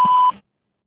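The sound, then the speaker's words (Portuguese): A single voicemail recording beep: a steady mid-pitched electronic tone lasting about a third of a second, then cutting off to silence. “Sua mensagem após o sinal.”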